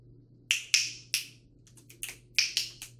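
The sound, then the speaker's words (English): Finger snaps in a loose, deliberately unmetered series: many crisp, bright clicks fall at irregular intervals, a few strong ones first and then a quicker cluster of softer and sharper snaps, over a faint low hum. “Unmetered snaps.”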